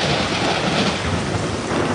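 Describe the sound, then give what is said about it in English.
A thunderstorm with rain: a dense, steady hiss of rainfall over a continuous low rumble of thunder, with no voices. “in this area, storms are inevitable.”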